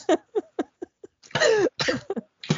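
A man coughs hard in a rapid fit of many sharp bursts. One long, rough, drawn-out cough sits in the middle, and a few more quick coughs follow it.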